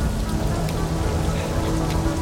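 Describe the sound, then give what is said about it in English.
Heavy rain falls in a dense, continuous patter, loud and unbroken throughout with no voices. “Now, blood-red rain streaks Forrest's face as he treks on.”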